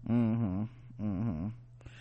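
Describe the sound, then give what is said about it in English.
A dog whines twice in drawn-out, wavering tones, fairly faint, and a brief click follows. “Come on, dog. Come on.”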